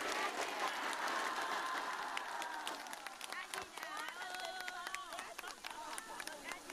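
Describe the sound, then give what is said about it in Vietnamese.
Sustained applause from an audience at a Buddhist dharma talk, clapping for their teacher: dense, steady clapping that stays loud throughout and thins slightly toward the end, with voices rising over it in the second half. “để chúng ta cho thầy chúng ta một tràng vỗ tay thật lớn và thật dài nhé Lớn nữa Dài hơn nữa”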